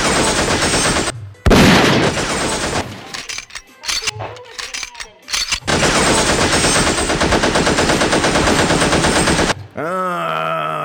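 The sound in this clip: Machine-gun gunfire sound effect played in a studio: dense, loud, sustained bursts of rapid shots that stop briefly near the start, then roar on almost without pause for several seconds.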